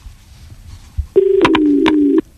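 Telephone line tone from a caller on a farmers' radio phone-in: a short thump, then a steady electronic tone lasting about a second with a few sharp clicks over it, fairly loud with no talk.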